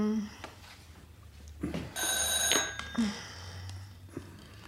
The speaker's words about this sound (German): Was ist das? Das Telefon